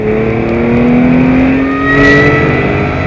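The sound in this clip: A car engine roars loudly as it accelerates hard during a chase, holding a sustained, steady revving drone with no talk over it.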